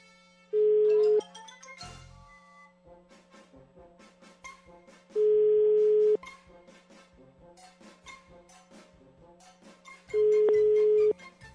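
A phone call goes unanswered: three long, steady ringback tones sound at even intervals about five seconds apart over a fainter continuous tonal background.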